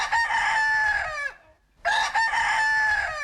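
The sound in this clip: A rooster crows twice, loud and clear. Each long, strained call is separated by a brief silence, with no voices.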